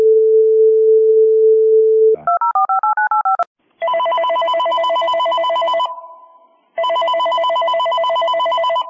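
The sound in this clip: A telephone call is placed: a steady dial tone gives way to a quick run of touch-tone digit beeps, followed by two long ringing tones with a pause between them, all loud and clear with no voices.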